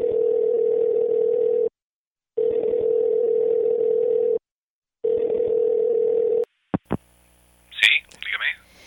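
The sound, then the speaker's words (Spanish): A telephone tone sounds on a phone line as a number is dialed: a steady, steady-pitched tone comes in three long pulses separated by short silences, followed by a couple of sharp clicks and then a brief voice. “Vamos a marcar el número, a ver si contesta, a ver si hay alguien.”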